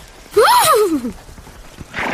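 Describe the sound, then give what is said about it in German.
A horse neighs happily in a single bright whinny that starts high and slides downward in pitch over about a second. It is loud and stands alone, followed by quieter noise and a short hiss near the end. “Wieherte Albert fröhlich, als der Muffinbaum in Sicht kam.”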